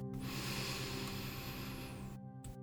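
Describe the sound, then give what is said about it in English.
One long, deep breath drawn in during a guided meditation, a soft, airy hiss that holds steady for about two seconds and then cuts off, quiet and with no speech. “Deep breath in”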